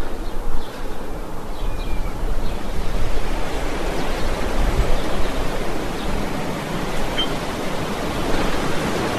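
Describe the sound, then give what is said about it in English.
Sea waves wash in a broad, continuous hiss and roar, loud and steady with only slight swells in level from start to finish. “that nice sea noise cut off a bit abruptly there.”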